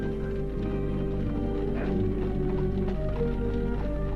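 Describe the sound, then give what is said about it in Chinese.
Steady clip-clop of a horse's hooves drawing a carriage, many rhythmic hoof taps running continuously over a dense, droning background. “自己坐在前边亲自赶车”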